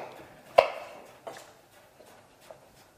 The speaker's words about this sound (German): So, hier unseren Ingwer, den schneiden wir auch ein bisschen kleiner für das Curry.